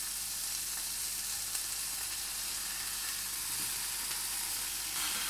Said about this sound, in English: Right, so now that oil is pretty much heated. I'm going to pop these.